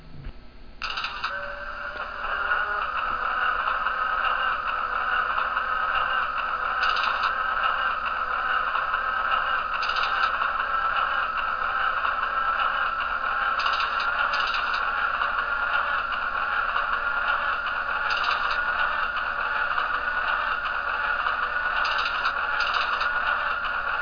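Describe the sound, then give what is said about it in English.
Streetcar direction-controller clank and throttle clicks from a standard streetcar, interurban car and freight motor: sharp metallic clicks at irregular intervals over a constant mechanical hum. “Direction clank, all cars. Throttle click, standard streetcar, interurban and freight motor.”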